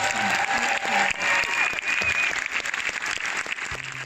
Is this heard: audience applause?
yes